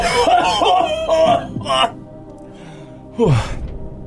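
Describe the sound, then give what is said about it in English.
A single harsh cough bursts out after a stretch of conversational talk, following a short quiet gap. “Oh, that cough was worse than two weeks ago when I had COVID.”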